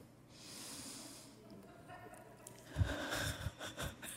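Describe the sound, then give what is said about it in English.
An audience drawing a deep breath together: a soft, breathy hiss of inhaling swells and fades, then an uneven rush of exhaling with a few louder bursts near the end. “So let's all take another deep breath.”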